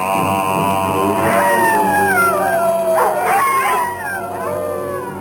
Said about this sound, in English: While the wolf in nightly prowl, bays the moon with hideous howl.